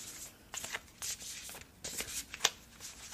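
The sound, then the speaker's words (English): Shuffling of a tarot card deck: soft, papery riffles and slides come in several short bursts. The sound is quiet and gentle, with one sharper snap near the end and no talking. “we'll go ahead and pick a card from this deck.”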